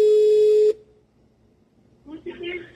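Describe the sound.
A telephone tone sounds while an international call is dialed: one steady pitch holds for under a second, then cuts off, and quieter, mixed sounds follow.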